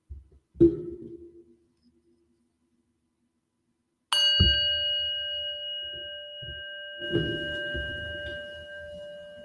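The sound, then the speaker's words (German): A singing bowl struck once with a mallet rings out in a bright, sustained tone with steady overtones that holds to the end, after a soft, dull knock earlier and with faint rustling beneath the ring. “Knöppel oder so für die Klangschale heraussuchen in meiner Kramkiste.”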